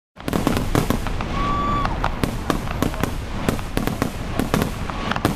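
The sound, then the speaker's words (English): Cheap fireworks are launched into the sky and explode, with many sharp cracks and pops over a continuous crackling rumble. A brief whistling tone rises early on. “But it didn't take long before low-grade pyrotechnics were being launched into the sky.”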